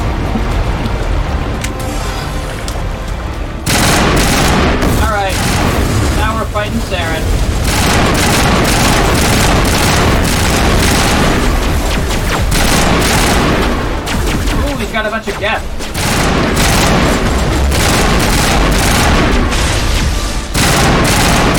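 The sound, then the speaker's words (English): Gunfire and explosions in a video game shootout, with a loud, dense barrage of shots and booms that runs almost without a break after a slightly quieter opening. “Theron's also on a floating hoverboard. Which makes it very easy to shoot.”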